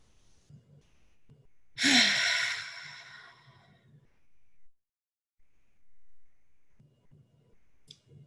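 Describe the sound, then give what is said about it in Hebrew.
A single loud breath released through the mouth during a guided relaxation exercise. It begins abruptly, then fades over about two seconds. A quiet low hum sits underneath, and a brief faint click comes near the end. “ניקח את שאיפה לשחרור מהפה.”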